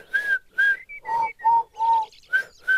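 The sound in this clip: A person whistles an imitation of lark song as a series of short, breathy whistled notes. The notes jump between higher and lower pitches in an uneven rhythm, clear and alone.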